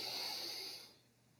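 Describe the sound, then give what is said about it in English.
A deep inhale drawn in through the nose: a soft, steady airy hiss that holds for under a second and then fades away, quiet and alone. “we're going to take a nice deep inhale through the nose”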